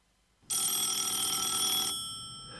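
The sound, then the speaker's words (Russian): A telephone ringing: a loud, continuous metallic bell ring of about a second and a half that starts abruptly, then stops and leaves a fading residue. “Следующий звонок был от Босса.”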